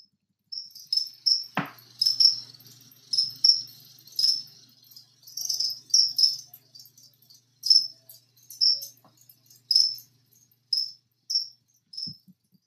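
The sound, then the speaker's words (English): Live crickets chirping in a natural sound recording: many short, high-pitched trilling chirps in a steady, fairly regular rhythm, alone and moderately loud throughout. “Yeah, that's the sound of crickets. And that goes live crickets, 60 minutes, natural sound.”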